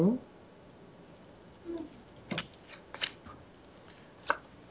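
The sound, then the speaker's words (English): Faint, crisp clicks of playing cards being dealt in a video game poker round. A few brief, sharp ticks are scattered over a quiet background. “Community cards go down. He is dealing...”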